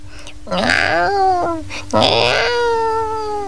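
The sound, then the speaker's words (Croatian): Two drawn-out, plaintive mewing cries of a lost kitten, each fairly loud and wavering before sliding lower in pitch, with a short pause between them. “Plače izgubljeno mače.”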